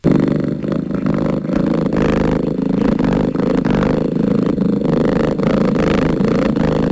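Purring from a carnivorous mammal, a loud, low, rhythmic vibration of the vocal cords that pulses steadily and continuously throughout.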